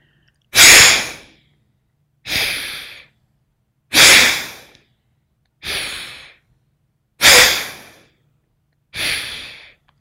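Vigorous breathing exercise: six forceful breaths, exhales and inhales, in an even rhythm about every second and a half, with louder and softer breaths alternating, and no talking.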